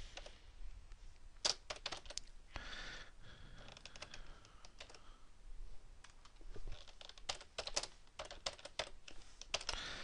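Typing on a computer keyboard produces quiet, irregular clusters of sharp key clicks, with short pauses between bursts.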